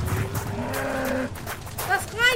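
A herd of cattle mooing, with a few long, drawn-out lowing calls overlapping, followed by shorter, higher bellows over a steady rumbling background.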